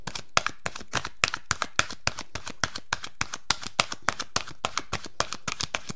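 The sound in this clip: Message cards are shuffled by hand, giving many crisp, papery slaps in a fast, steady rhythm. The slaps are fairly even in loudness and run throughout, with no voices.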